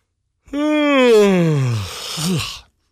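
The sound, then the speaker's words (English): A man's voice imitates a big, exaggerated yawn, like a baseball manager yawning on the bench: a long voiced tone that slides steadily down in pitch, then ends with a short rising-and-falling groan. “big yawn, man”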